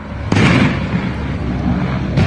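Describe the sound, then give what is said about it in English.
Heavy blasts and gunfire ring out as a helicopter circles the Supreme Court in Caracas, dropping grenades and firing at ground targets. Two abrupt, loud bursts each give way to sustained roaring noise. “That's the sound of a helicopter circling the Supreme Court in Caracas, dropping grenades and firing at targets on the ground.”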